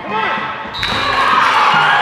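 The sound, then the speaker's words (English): A volleyball thuds as it bounces off the ceiling of a gym during a team's match, one muffled impact standing out from a steady wash of crowd noise and voices. “Within a few minutes, the ball bounces off the ceiling, and Mariah sets it to a teammate who gets it over the net.”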